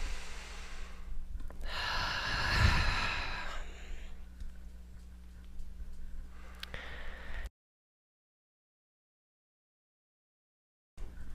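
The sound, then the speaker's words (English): Deep, slow breaths taken during a guided activation session: one long, full breath swells and fades, followed by softer breathing and then a stretch of silence. “Okay, so I'm just going to take some nice deep breaths.”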